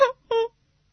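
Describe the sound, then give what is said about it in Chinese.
Crying of a baby elephant, two short, high wailing cries in quick succession, the second slightly longer, followed by silence. “原来是小象在哭呢。他一边哭一边喊”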